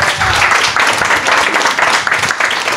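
A live audience applauds a guest with dense, steady clapping that stays loud throughout, and a few cheers are mixed in.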